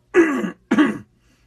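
A person clears their throat in two rough, raspy bursts, the second slightly shorter, followed by silence.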